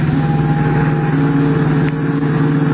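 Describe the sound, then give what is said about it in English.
Engine drone of a big sedan driving swiftly along a fog-swept waterfront, a continuous loud low hum with steady tonal harmonics, holding level throughout with no voices. “Clinging to the rear bumper of the big sedan in which Gloria Garrett rides with an unknown man, Batman and Robin are carried swiftly along the fog-swept waterfront.”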